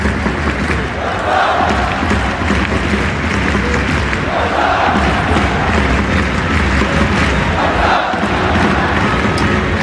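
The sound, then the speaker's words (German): A football stadium crowd at Camp Nou in Barcelona fills a La Liga match with a dense, steady roar. Its noise swells in a few chant-like waves. “Bon dia aus dem Camp Nou. Ihr hört es.”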